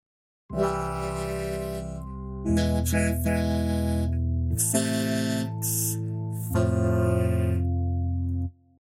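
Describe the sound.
A four-chord loop in the key of C, playing C major, E major, A minor and F major in turn. Each chord is held for about two seconds with a clear change between them, then the sound stops after the fourth.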